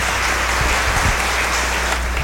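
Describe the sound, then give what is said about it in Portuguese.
Applause for a deacon at a church service, dense and steady clapping that holds at an even level throughout. “Então, uma salva de palmas ao nosso diácono, né?”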